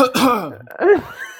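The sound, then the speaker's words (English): A voice fakes a cough to cover up a loud fart in a library: two throaty, voiced bursts with a gravelly, throat-clearing quality, separated by a short gap, with no other sound. “he tried to cover it up with a cough.”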